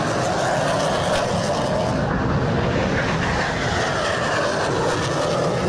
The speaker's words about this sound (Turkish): Gökyüzü önce Gökbey'in pervane sesleriyle yankılandı, hür kuş ve hürjet peş peşe havalandı.